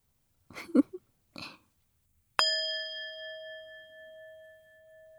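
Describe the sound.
A metal singing bowl is struck once, giving a clear bell-like ring with strong sustained overtones that fade slowly over several seconds. Two brief, soft vocal noises come just before the strike.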